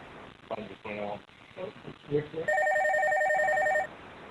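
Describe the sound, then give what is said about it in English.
Telephone ringing at an espresso shop where many phones are going off: people talk, then a bright, steady electronic ring lasts over a second, louder than the voices. “Hold on! We have like 10 phones here and they're all ringing.”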